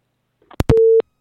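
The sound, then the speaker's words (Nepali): A telephone busy tone sounds on a phone-in line after a caller disconnects. A few sharp clicks lead into one short, loud, steady tone, then silence. “नमस्ते भन्दै थियौँ, उहाँको phone disconnect भइसकेको छ”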